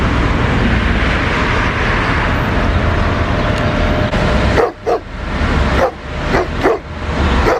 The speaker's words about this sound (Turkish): Sabah işe gitmek için evden çıkan bir kişi otoparkta başıboş sokak köpekleriyle karşılaştı.